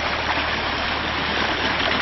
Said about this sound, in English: See the beautiful creek.